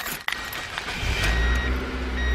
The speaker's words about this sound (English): Meet my new used car.